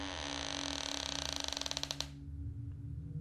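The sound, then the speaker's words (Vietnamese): An old door creaks open with a long, strained creak whose pulses speed up and then cut off abruptly, leaving a low hum. “Tiếng cánh cửa cũ kỹ kêu lên có két.”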